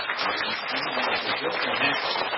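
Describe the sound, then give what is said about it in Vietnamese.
Audience applause at a Buddhist temple: a dense, continuous patter of many hands clapping together, with voices mixed into the steady wash. “Thì xin tất cả quý vị cho một tràng pháo tay với nhau.”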